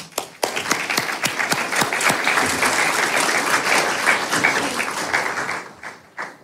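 Audience applause welcoming panelists to the stage at a gathering: dense, sustained clapping that starts with a few sharp claps, holds steady for several seconds and then tapers off with scattered final claps.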